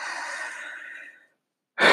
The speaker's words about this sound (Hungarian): De már az első alkalommal most szippantottam elnézést, hogy szipolok, csak megfáztam itt, vagy, vagy elkaptam valami vírust